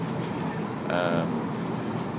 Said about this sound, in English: As it is, as I say, the train is empty, and it's already been to Harrogate